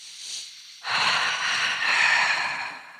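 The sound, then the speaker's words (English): A deep breath drawn and released, starting as a faint breathy sound and then swelling into a long, loud, airy rush that holds steady for about two seconds. “Let's do a breath.”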